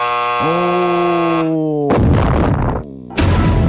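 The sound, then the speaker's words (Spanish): A bomb explosion sound effect: a steady buzzing hum gives way to a loud, roaring burst of noise that cuts off briefly before a second burst. “Ahí vino la bomba.”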